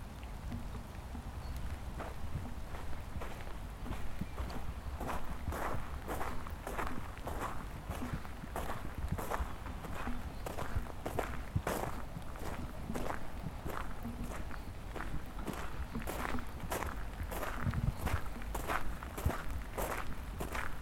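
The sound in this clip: Footsteps of someone walking toward a bench and a bin, a steady run of many even steps with a faint noisy background and no talking.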